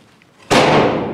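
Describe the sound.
A single sharp knock on a German oak coffin, a hard, loud impact followed by a short, bright ringing decay.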